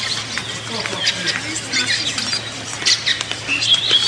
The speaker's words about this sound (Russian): заливаются птицы, которые встречают вместе с нами эти рассветные пасхальные часы.